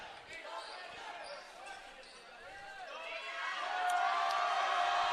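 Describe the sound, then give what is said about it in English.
Student section crowd at a Mercer Island vs Liberty boys high school basketball game, murmuring at first, then swelling noticeably louder toward the end, with a ball bouncing amid the noise. “Getting loud in the student section”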